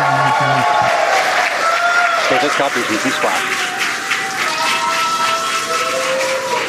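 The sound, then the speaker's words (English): Crowd cheering and applause greet the Polaris Dawn crew's splashdown after the first commercial spacewalk, a loud continuous wash of clapping and voices throughout. “as you can see on your screen, and by the cheers behind us, the Polaris Dawn crew has successfully splashed down.”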